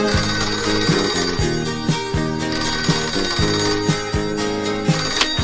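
A telephone rings with a melodic ringtone, its bright repeating notes pulsing in a steady rhythm for several seconds. No voices are heard, and it sounds just before a call is answered.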